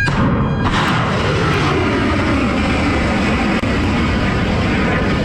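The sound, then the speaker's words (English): A missile fired from a United States warship gives a sharp, very loud burst, then a sustained roaring rush that stays strong and unbroken for several seconds. “That's the sound of a missile being fired from a United States warship.”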